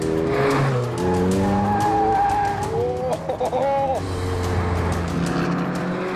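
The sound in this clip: A Lotus car driving fast through corners, with a steady engine roar and repeated loud tire squeals whose pitch shifts from bend to bend, briefly dipping midway before the engine and squealing pick up again.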